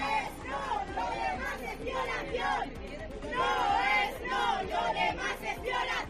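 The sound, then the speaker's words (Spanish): Marchers at a protest against gender violence in Lorca, Spain, on 25N chant and shout together, a loud, rhythmic mass of raised voices rising and falling in waves. “Una manifestación contra la violencia machista ha recorrido las principales calles de Lorca bajo el lema Por la igualdad real, nos queremos vivas, ni una menos.”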